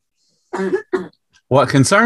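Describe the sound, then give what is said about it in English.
A woman coughing: two short, rough coughs in quick succession, followed by a brief stretch of voiced sound. “she's over there coughing her head off”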